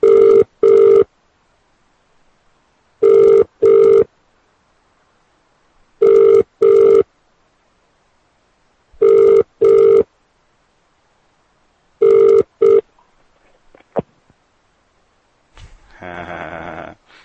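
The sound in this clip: Telephone ringing down the line during a prank call-back: five evenly spaced double rings about three seconds apart, then a click and a short, noisy burst at the end.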